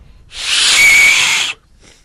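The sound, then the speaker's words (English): A single breathy whistle blown with a small shell at Cape Leveque rises out of near silence and holds one steady high tone for just over a second, then cuts off. “what's with the whistle? Well, I've just been taught by a fella I met today named Bundy how to whistle with a little shell.”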